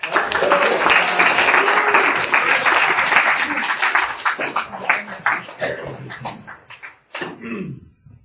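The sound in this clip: Audience applause welcoming a speaker at an alcoholics' recovery meeting: dense, steady clapping for several seconds that gradually thins into scattered individual claps and fades out near the end.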